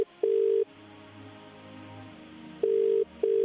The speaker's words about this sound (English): All right, dialing now.